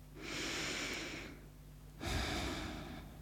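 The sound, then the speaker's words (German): One deep breath is taken: a long, audible breath in, then after a short pause a fuller breath out, soft and alone with no talk. “dafür atme einmal tief durch”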